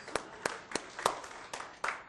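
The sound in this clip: A small, sparse round of applause: six distinct hand claps in a slow, fairly even rhythm, faint and crisp.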